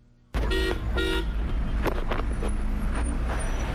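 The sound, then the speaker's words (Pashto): Busy street traffic in crowded central Kabul, with two short car horn toots near the start over a loud, steady rumble of engines and road noise that continues throughout. “دا د کابل ښار په مرکزی برخه کې د افغانانو سیمه ده. په دې سیمه کې د خلکو او موټرو ګڼه ګوڼه خورا زیاته ده.”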